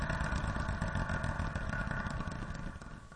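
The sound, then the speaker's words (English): A spinning wheel turns for a radio chart segment, giving a fast, continuous clatter of ticks at an even rhythm that fades slightly as it slows near the end. “this is where we spin a wheel and compare the songs from that spot on both the Americana and college radio charts”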